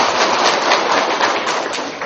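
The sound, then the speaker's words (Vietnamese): Applause from the audience at a Buddhist dharma talk, rewarding someone who answered a question correctly: dense, steady clapping that continues without a break, with no voices over it. “Giỏi, cho anh chàng pháo tay.”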